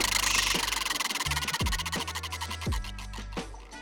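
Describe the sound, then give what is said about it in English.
The Wheel of Destiny prize wheel spins with a rapid run of ratcheting ticks that gradually spread out and slow, sounding over low sustained tones. “we forgot to spin the Wheel of Destiny to figure out what my chop shop was going to be for next week. So, I'm going to go ahead and spin it now.”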